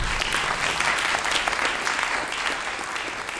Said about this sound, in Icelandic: þetta var Schubert, einstaklega fallegt, ef ég klappa aftur fyrir Guðfinni.